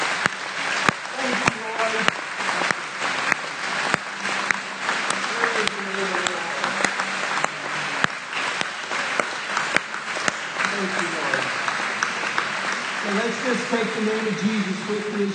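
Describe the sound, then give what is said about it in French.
A French-speaking church audience applauds and acclaims the Lord. Sharp, scattered claps ring through a steady bed of clapping while voices call out and shout praise. “Acclamons le Seigneur.”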